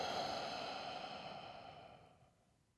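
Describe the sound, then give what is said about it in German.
A slow, deep breath taken during a guided group relaxation exercise: a soft, airy hiss that gradually fades away over nearly three seconds, faint and with no talking. “Wir nehmen gemeinsam einen tiefen Atemzug, tief ein und ausatmen.”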